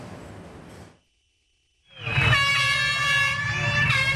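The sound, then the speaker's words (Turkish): Horns blare at the start of a mass public bicycle ride of about 1,500 cyclists on a Tour de France stage in Istanbul. Sustained bright tones rise after a brief silence, layered over a broad rumbling background. “Kornalar çaldı.”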